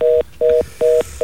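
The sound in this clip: A telephone tone sounds after the caller hung up: a steady two-note electronic beep pulses on and off in a rapid, even cadence. Three full bursts play, and a fourth begins at the end. No voices are heard.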